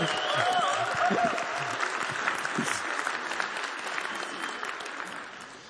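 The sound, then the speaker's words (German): Congregation applause at a church service: dense, lively clapping that tapers off gradually toward the end, with a few voices mixed in. “Ja, du könnt ihm einmal ruhig ein bisschen Applaus geben.”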